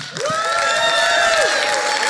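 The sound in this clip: Applause and cheering greet a speaker being introduced at an evening event. The clapping is dense and steady throughout, topped by a long, loud whistle or whoop that holds and then drops away.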